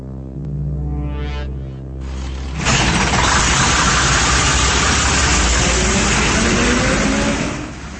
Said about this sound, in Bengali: সকালবেলা উঠে গাড়ি নিয়ে সোজা বাংলোতে চলে এলো।